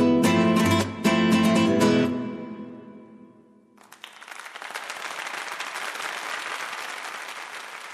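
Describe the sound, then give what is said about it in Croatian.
Applause after a concert, a dense, steady wash of clapping that rises in after the final music fades and then carries on evenly to the end. “U prvom redu vidjela sam tatu. Pljeskao je do iznemoglosti.”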